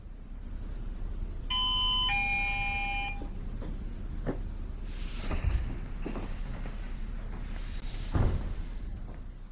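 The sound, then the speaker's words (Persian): A doorbell gives a two-note electronic chime, a bright tone followed by a lower one, fairly faint, then quiet handling noises after the chime stops. “لطفاً از این به بعد زنگ نزنید. شما که رمز در رو بلدید.”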